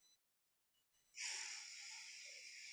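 A deep inhale taken during Kundalini yoga: a long, steady, airy breath in that swells suddenly after a few faint brief sounds and holds at an even level for well over a second.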